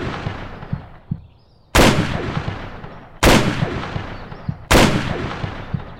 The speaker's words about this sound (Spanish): Tienes que disparar a la barda.